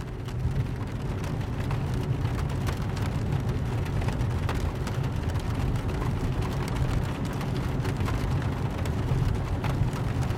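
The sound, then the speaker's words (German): Gentle rain patters steadily on a roof overhead, a soft even hiss dotted with light ticking drops, with a low constant rumble underneath. “Draußen beginnt es ein wenig stärker zu regnen und das leise Prasseln auf dem Dach über dir klingt angenehm beruhigend.”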